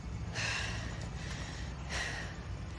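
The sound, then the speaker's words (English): A woman pants, catching her breath after running down a street, with two loud, breathy gasps a second or so apart over a steady low rumble. “the women slow to a stop. As Zoe catches her breath, Claire glances over at her.”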